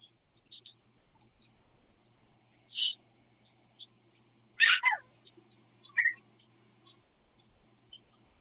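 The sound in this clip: Bird calls in the background of a phone call: a few faint, short, high-pitched chirps and squeaks scattered across the stretch, separated by quiet gaps.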